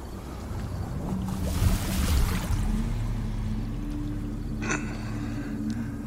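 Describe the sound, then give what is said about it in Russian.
Water sloshing and churning around a boat being rocked by a serpent, a continuous rough rumble with low creaking tones and a brief splashy burst near the end, no voices. “Змей качает лодку Дины.”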